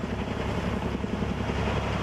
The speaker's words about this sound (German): Seit dem Morgengrauen fliegen Löschhubschrauber ohne Pausen über der Ferienregion Kalamos.